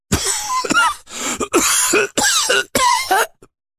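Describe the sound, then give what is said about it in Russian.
A man's fit of harsh, dry coughing, several hacking bursts in quick succession, loud and alone, leaving his voice hoarse. “закашлялся, его голос стал хриплым, сухим, будто говорить ему тяжело.”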